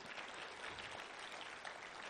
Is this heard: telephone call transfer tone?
no